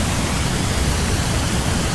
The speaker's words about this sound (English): Pretty loud rumble. Oh, and you can see the rocks being carved out by the water.